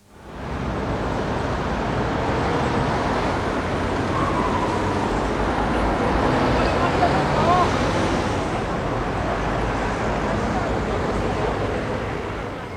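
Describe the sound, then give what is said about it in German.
City road traffic in London makes a steady, loud roar of passing cars and other vehicles, a broad rumbling wash that holds at an even level throughout with no distinct horns or pauses. “Hört sich der Verkehr in London auch so an? Ein bisschen anders. Listen. Traffic in London.”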